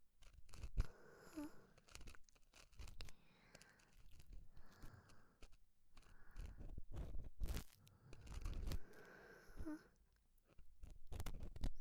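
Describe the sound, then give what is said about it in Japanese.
An ear pick cleans inside an ear, making gentle, continuous scratchy crackling and rustling. Sharper crunchy clicks occur now and then, and the sound stays fairly quiet throughout. “それでは、優しく、ゆっくりと、癒しの耳かきをさせていただきます。”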